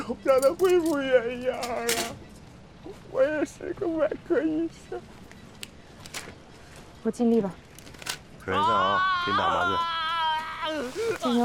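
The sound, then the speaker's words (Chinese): A person with an injured hand cries in pain at a medical aid station, with wavering sobs and whimpers in short bursts and a longer, higher wail near the end. “别哭了”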